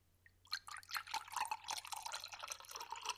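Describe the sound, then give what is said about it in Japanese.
A drink is poured into a glass as a faint, continuous splashing trickle with small gurgles and drips. It starts briefly and keeps a fairly even flow. “今注ぐね”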